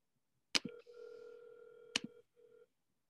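Ringback tone of an outgoing telephone call: a steady electronic tone lasting over a second, cut by clicks, then a shorter tone.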